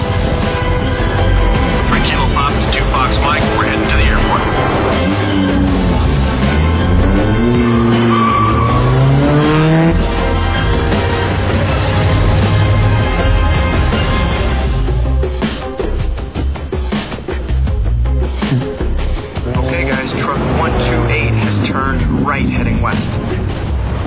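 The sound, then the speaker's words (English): A racing truck's tires squeal and skid over a loud, sustained engine roar, with wavering pitched screeches that run almost continuously. “We've crashed.”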